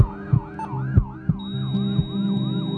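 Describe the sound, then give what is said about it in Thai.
An emergency ambulance siren wails in repeated rising and falling sweeps. It stays loud and steady, with a few low thuds beneath it. “โปรดให้ทางรถกู้ชีพฉุกเฉินทุกเส้นทาง”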